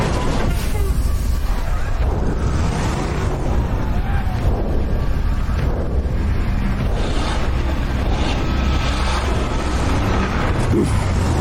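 Loud, continuous engine and road rumble of a bus driving along a freeway near a southern exit, a dense, churning roar that holds steady throughout with no pauses.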